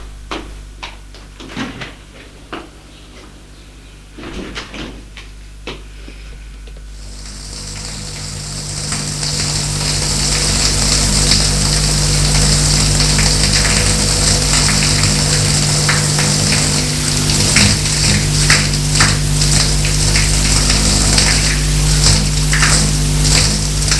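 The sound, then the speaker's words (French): A shower runs in a bathroom. A few knocks and clatters come first, then the water starts and settles into a steady, loud hissing spray that continues to the end. “Jette le couteau et va à la salle de bain prendre une douche.”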